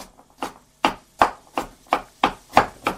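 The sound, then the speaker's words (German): A knife chops pumpkin into small pieces in a steady run of sharp, crisp chops, about three per second, each one a clear percussive knock with no talk over it. “Und jetzt schneiden wir Kürbis, so kleine Stücke.”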